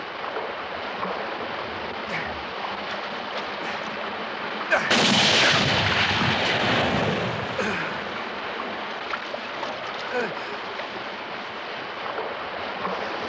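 A single gunshot blasts out loud and broad about midway through, its crack spreading into a rumbling decay that fades over a couple of seconds against a steady hissing background.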